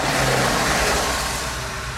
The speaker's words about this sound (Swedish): Nej då, det var en lastbil som körde förbi.